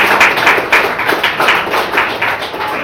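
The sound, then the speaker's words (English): Audience applause after a live interview ahead of a race: many quick hand claps blend into a dense, steady, fairly loud patter that lasts about three seconds with no voices. “So a round of applause, please, for Camilla Mayfield.”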